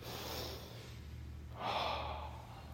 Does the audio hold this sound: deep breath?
yes